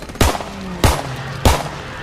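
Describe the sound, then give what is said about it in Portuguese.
Three loud, sharp gunshots fired during a close wartime struggle, evenly spaced about half a second apart, each a hard crack with a brief ringing tail and no voices between them. “mirou nele e atirou três vezes.”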